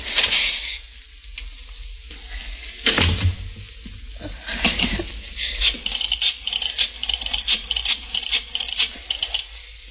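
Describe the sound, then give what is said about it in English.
Scratchy rattling of a key fumbling in a stuck door lock, a steady, busy stream of many small clicks and scrapes that grows denser toward the end. “Key. Where's my key? Darn this lock. Darn the lock.”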